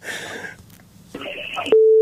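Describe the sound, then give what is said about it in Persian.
A caller's telephone line connecting: brief muffled line noise and garbled sound, then a steady, fairly low electronic tone holding for a fraction of a second before cutting off. “بله تماستان وصل شده.”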